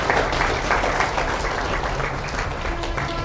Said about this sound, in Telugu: ఇప్పుడు మీరు చప్పట్లు ఎందుకు కొట్టారు?